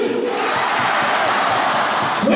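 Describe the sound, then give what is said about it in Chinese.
Football supporters chant and cheer for their team during a match, a dense, steady crowd roar that holds at an even level for the whole stretch. “高旭江队的加油声，荣民队，”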